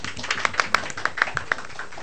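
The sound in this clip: Scattered clapping from a small audience welcoming an author about to read from his children's book, with many separate, sharp hand claps at an uneven pace, moderately loud and then trailing off.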